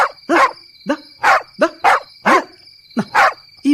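A puppy barks in a radio drama: many sharp, high yapping barks in an uneven rhythm, loud and alone, with short gaps between them.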